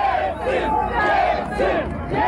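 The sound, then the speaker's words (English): A large crowd of supporters cheers and shouts in a Moscow street during a coup, a dense, continuous roar of many voices with rising and falling swells of yelling throughout. “In the streets, his supporters cheered him on.”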